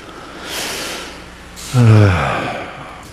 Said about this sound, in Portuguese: crianças dormindo e você respira profundo.